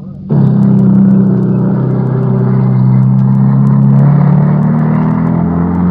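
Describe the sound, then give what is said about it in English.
Military tanks move up toward frontline companies in a narrow valley among hills, engines running in wartime combat. A loud, continuous low engine rumble starts abruptly after a brief quieter moment and stays steady throughout. “Tanks are being moved up to the two companies under the Banzai attack.”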